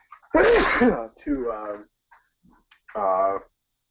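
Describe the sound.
A single loud, explosive sneeze bursts out, and brief talk follows in short phrases after it.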